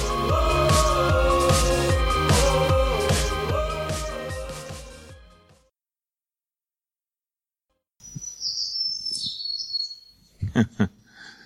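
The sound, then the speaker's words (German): Forest birdsong of bright chirps and warbling calls comes in after a stretch of music fades out into a silent gap, with several quick tweets layered together. “Das ist ein Stück Klang vom Wald. Ein Ausschnitt aus der Symphonie der Natur.”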